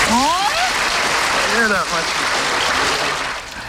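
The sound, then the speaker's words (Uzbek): Loud audience applause on a quiz show after a correct answer, mixed with shouts and cheering voices, then thinning toward the end. “Va olqishlar sizga.”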